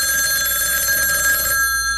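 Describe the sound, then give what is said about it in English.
A telephone bell rings in a steady, bright, continuous trill at a family dining room table, holding at an even level before cutting off shortly before the end. “Daddy looked at his watch. The phone kept ringing. Is anyone going to answer the phone?”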